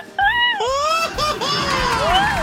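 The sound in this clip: A loud, excited yelled cry, the kind of spirited shout given in response to a call for an energetic 'grito.' The voice sweeps up and down in pitch and holds strongly for about two seconds.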